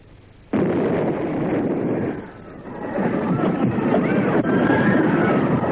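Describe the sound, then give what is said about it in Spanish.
Northern artillery shells explode over a city in panic. A sudden loud blast gives way to a sustained roaring rumble, which dips briefly and then swells again with further sharp bursts. “El pánico se apoderó de la ciudad al estallar las primeras granadas norteñas.”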